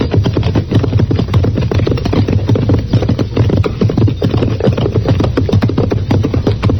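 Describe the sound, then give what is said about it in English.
Horse hooves clip-clopping on the prairie beside a burnt-out wagon, a continuous run of quick, fairly loud knocks with no voices. “And that's his horse, too.”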